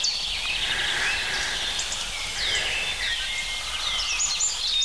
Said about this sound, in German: Diese Morgenkälte, die Amsel sehr präzise singen lässt, aber dafür kurz, und die den Zipzalp so richtig ankurbelt.